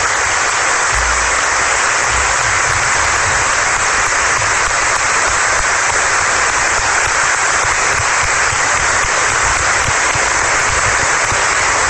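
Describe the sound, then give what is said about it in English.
A standing ovation of applause: dense, sustained clapping from a large crowd stays loud and even throughout, with no break or change in intensity. “standing ovation for Kate Stoddard. Obviously well deserved.”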